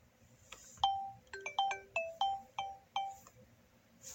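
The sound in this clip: An old phone rings with a quick run of bright electronic beeps in a melodic ringtone pattern, fairly faint and heard alone.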